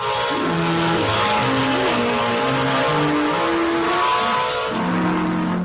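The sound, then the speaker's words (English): Car driving to a run-down city neighborhood: a steady, rough engine and road roar runs throughout, with a tune of stepped low notes playing over it. “On this cheerful note, and $85 poor, we drove down to the dingy neighborhood of 132 Adolphus Street.”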